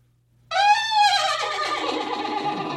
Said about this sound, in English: what do you think of this when the horse neighs?